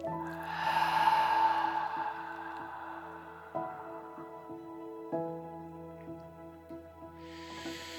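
During a guided breathing exercise, a long, airy exhale is blown out over soft, sustained background music. After a quiet stretch, a fresh breath begins to be drawn in through the nose at the very end.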